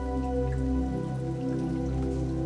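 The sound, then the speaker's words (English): Rain falling in a steady, even wash of drops that holds without a break under sustained low, humming tones. “and open yourself to receive the rain.”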